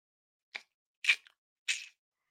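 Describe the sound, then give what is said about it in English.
Someone eats noisily, giving three short, crisp, wet chewing smacks spaced about half a second apart with silence between them. “Why are you eating like that? You're chewing like a goat. Why are you eating like that?”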